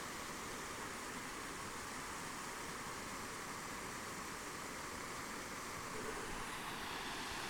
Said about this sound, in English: I listen to the waterfall and I think, this is the sound of snow.